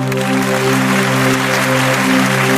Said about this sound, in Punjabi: ਇੱਕ ਵਾਰੀ ਸੱਚਾ ਪਿਆਰ ਕਰਨ ਵਾਲੀਆਂ ਰੂਹਾਂ ਦੇ ਨਾਂ ਤੇ ਤਾੜੀ ਮਾਰ ਦਿਓ ਜਰਾ।